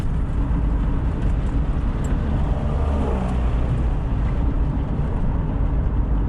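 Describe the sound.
A car drives along the road toward the town of Progreso in western Honduras, producing a steady, unbroken wash of engine and tyre rumble at moderate loudness with no distinct events.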